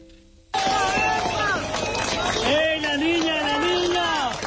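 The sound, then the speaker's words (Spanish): A crowd cheers and shouts to celebrate the rescue of a three-year-old girl pulled alive from a collapsed building in Cali after an earthquake in Colombia. Loud, overlapping voices burst in after a quiet start and keep going. “El sonido de la celebración del rescate de una niña de 3 años con vida bajo un edificio en Cali, una de las ciudades más afectadas por el terremoto de Colombia.”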